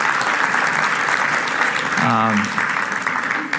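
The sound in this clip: Audience applause for volunteers who acted as living illustrations in a Christmas church talk: loud, sustained clapping from many people, with a voice briefly speaking over it midway.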